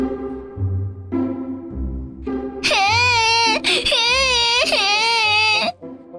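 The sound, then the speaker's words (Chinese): A little girl wailing after failing to grab a ball, her high, wavering cries loud and sustained with a brief catch in the middle before they stop abruptly. “吵死了！莎莎抢不到东东的皮球，又哭了。”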